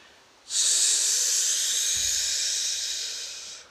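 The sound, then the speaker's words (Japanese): A deep chest-breathing inhale, taken as a full breath after emptying the lungs through the mouth: one long, loud, airy hiss that starts abruptly and holds steady for about three seconds, fading only slightly at the end. “皆さんはラジオ体操の深呼吸分かるからちょっとそれをやってみましょう息を口から全部出して前にこう手を広げてこう胸をこう広げるように息をあのいっぱいに吸ってみましょうでは胸式呼吸深呼吸をやります”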